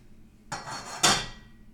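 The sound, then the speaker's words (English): A frying pan is set down on a stove burner, heard as two bright metallic clanks about half a second apart, the second sharper and louder. “I'm going to put that on the other burner, but I'm not going to turn on the heat. I'm just going to use this pan to heat up the tortillas when that time comes. So let's put that on the stove”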